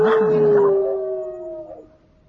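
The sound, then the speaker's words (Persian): A wolf howls once: a long tonal note that holds fairly steady, dips slightly in pitch near the end and fades out after about two seconds, heard alone. “تو هم همینطور گرگ، باید زوزه بکشی و دوستان رو خبر کنی.”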